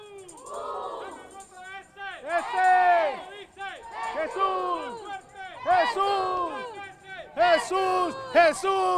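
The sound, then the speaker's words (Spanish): A crowd at a religious procession for the Blessed Sacrament shouts cheers of 'viva'. Many voices rise in repeated bursts of varying loudness. “Escuchamos el ambiente de fondo, escuchamos las vivas.”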